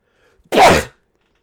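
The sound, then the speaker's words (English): A single sharp sneeze bursts out loud and short, standing alone against silence. “Whoa, bless you.”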